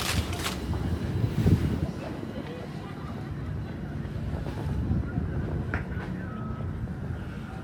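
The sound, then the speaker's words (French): The sea with the tide rising: a continuous, rushing wash of waves mixed with wind buffeting the microphone, steady and fairly loud throughout. “La mer, la marée monte, remonte.”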